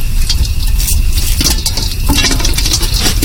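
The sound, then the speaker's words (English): Popcorn cooks in a covered pot over an open fire, giving a steady, dense crackle and patter of kernels that stays loud throughout with no voices. “Wow, popcorn on a real fire.”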